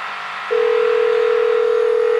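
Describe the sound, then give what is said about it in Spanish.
A phone call being placed: after a short stretch of soft hiss, a single steady line tone starts abruptly and holds unbroken and loud to the end. “Ah, ok, podemos llamar a Tommy entonces.”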